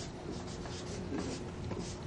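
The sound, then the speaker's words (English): A marker drawing a square on a board during a lecture, giving soft, continuous rubbing and scratching strokes. It is quiet, with no talk over it. “I will draw this square here.”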